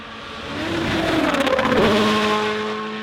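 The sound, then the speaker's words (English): A rally car races through a fast stage in Finland, its engine swelling to a loud, buzzing peak and then fading, with the pitch shifting as it passes. “The cars are going to be flying here in Finland.”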